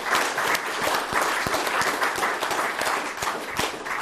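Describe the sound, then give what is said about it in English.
Audience applause at a Commonwealth Club event, dense, continuous clapping that is loud and alone, with small swells across its length. “So let's give a wonderful applause to our audience here and on the radio and the internet who are listening to us.”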